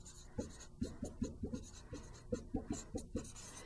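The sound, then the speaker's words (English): Writing on a board during a maths lecture: many short, rhythmic scratching strokes in quick bursts, fairly faint and with no talk. “And let me see if I can find a place to write that on this board.”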